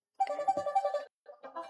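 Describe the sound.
A telephone ringtone at a radio station: a faint, tonal, melodic ring in two bursts, a longer one and then a shorter one after a brief pause.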